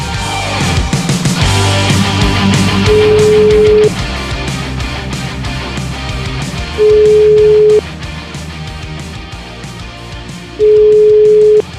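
Telephone ringback tone as a call to a town mayor is placed: three steady mid-pitched tone bursts, each about a second long and spaced roughly four seconds apart, over a dense, continuous background.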